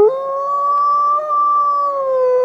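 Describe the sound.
A canine howl, from a wolf or dog-wolf hybrid, rings out as one long, loud, sustained tonal note. Its pitch holds nearly level and sags slightly near the end, with no other sounds.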